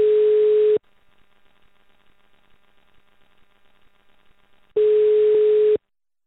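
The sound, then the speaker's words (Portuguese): Telephone ringback tone heard while placing a call: two long, steady, mid-pitched tone pulses separated by a gap of faint line hiss, with no talking. “eu acho que agora é hora da gente ligar para uma pessoa.”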